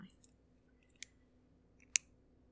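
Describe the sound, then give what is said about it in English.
Two sharp, faint clicks about a second apart as a key of the double-sided kind turns to unlock a lock, with little else around them. “I've got to unlock this one. I don't like the way the keys go into these, though.”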